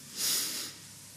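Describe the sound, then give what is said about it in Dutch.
A single soft exhale during a guided breathing exercise, a faint airy hiss that swells briefly and then fades to near silence. “Adem uit. Adem in. Adem uit.”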